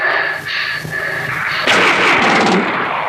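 Gunfire rings out in rapid, loud, sharp cracks, first a few separate shots, then a denser, heavier burst of firing in the second half with no speech over it.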